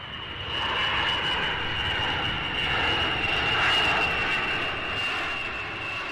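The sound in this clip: An airplane engine at Düsseldorf Airport gives a steady, loud roaring drone with a sustained high whine over it, holding even throughout with no voices.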